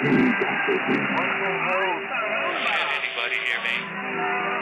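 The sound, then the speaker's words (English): A shortwave radio broadcast comes through as a narrow-band, noisy signal, with a voice and warbling tones smeared by crackle and steady interference. “And if they get their way, the shortwaves might sound less like this.”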